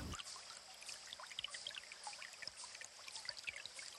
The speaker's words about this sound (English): sense the water or hear the rushing sounds of the water.